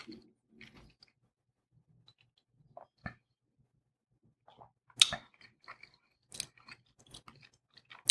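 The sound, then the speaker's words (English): Faint, irregular mouth sounds of someone chewing a tough, salty steak: many short soft crunches and squelches scattered between quiet pauses, with a few louder bites. “The steak's a little on the tough side. And kind of salty, actually.”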